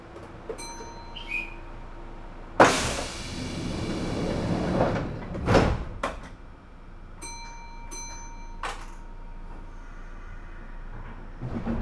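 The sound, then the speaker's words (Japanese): Train doors sliding shut on a Japanese platform, a rising rush of air and rumble followed by a thud, with repeated electronic chime tones before and after and a steady low background hum. “扉が閉まります。ご注意ください。”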